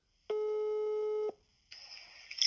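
A telephone ringing tone while a call is being placed: one steady, buzzy tone lasting about a second, then a short silence before a different, higher and noisier sound starts.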